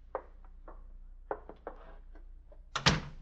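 A door being opened, with a few soft knocks and thumps followed by a sharp, louder clatter near the end.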